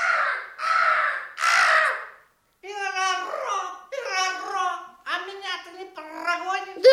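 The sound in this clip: A crow gives three harsh, raspy caws in a row, called in a folk tale along with sparrows and pigeons. A child's voice and other voices then talk over light chatter.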